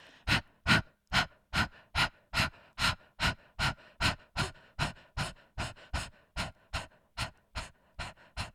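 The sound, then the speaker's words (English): Short, forceful nasal exhales from a breathwork exercise, like little sneezes. Many sharp, breathy bursts follow one another in a fast, steady, even rhythm, each pushed out at the same strength, with no talking. “then you're going to focus on 20 short out breaths. Like I said, like a short little sneeze.”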